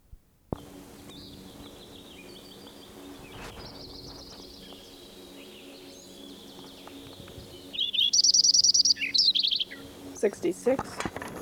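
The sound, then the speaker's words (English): Lincoln's sparrow singing, a bright, rapid series of high buzzy trills and warbled notes that bursts in loudly after a stretch of low background hiss, followed by a few shorter chirps. “Lincoln Sparrow number 7, continued from last tape.”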